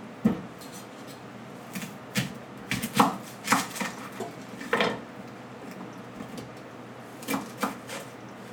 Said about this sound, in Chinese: 然后我们要切洋葱。洋葱我觉得半颗就可以了。